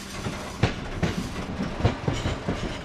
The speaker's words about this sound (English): And this is actually from a soundtrack to the movie Dancer in the Dark. And this basically, as you'll hear, is a pop song with the rhythm track created by a locomotive.